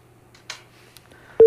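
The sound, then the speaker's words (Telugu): A telephone call-in line disconnecting, with a faint, quiet line hiss that ends in a sudden, loud, brief electronic tone burst. “Hello, caller line cut అయినట్టుంది.”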